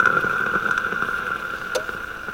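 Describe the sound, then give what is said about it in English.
Nespresso espresso machine pump running, a steady buzzing drone at a constant pitch, fairly loud and unchanging throughout. “my Nespresso maker. My mother loves espresso coffee. As I was saying before, there is the pump.”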